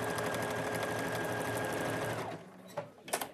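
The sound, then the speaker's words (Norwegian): A sewing machine stitches a specially designed, made-to-measure coat with a steady, busy whirring run. The run stops after a little over two seconds and is followed by a few light clicks. “Her syr de ei spesialdesigna kåpe etter mål.”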